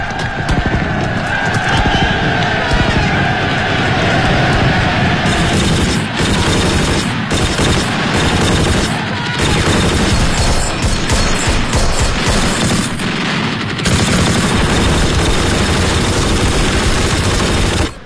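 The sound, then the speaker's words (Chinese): Dense, continuous battle gunfire at the Tenaru River, where a Japanese bayonet charge met American fire: rapid machine-gun and rifle volleys roll on loudly and without pause, with scattered sharper bursts, and no talking. “但是血肉之躯无法抵挡横飞的子弹”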